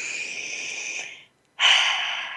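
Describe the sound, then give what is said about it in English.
A deep breath made up of two long, airy breath sounds, the first trailing off, then a short silence before the second begins loud and slowly fades. “really pause and take a breath together.”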